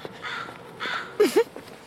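Crows cawing in the early morning: two loud, harsh caws in quick succession stand out, with softer hoarse calls and a faint background hiss around them.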